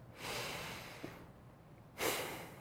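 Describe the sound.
A deep breath comes as two long, breathy rushes of air separated by a short pause, fairly quiet and alone without speech.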